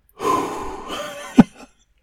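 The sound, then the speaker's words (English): Deep breaths from someone settling into an electronic reclining chair: one long, noisy breath followed by a short, sharp snort-like exhale, then silence. “Let me take a couple deep breaths.”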